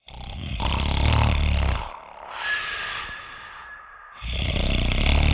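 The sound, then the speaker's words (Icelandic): Loud, rasping snoring from a sleeper, with a few heavy, rough breaths that swell and fade, the strong snores separated by quieter, breathier stretches. “Hroturnar bergmála hverfið.”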